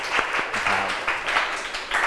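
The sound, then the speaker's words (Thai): Classroom students applauding a group during a Thai music lesson quiz. Moderately loud, busy clapping runs throughout with a few sharper bursts. “ปรบมือให้กลุ่มที่3”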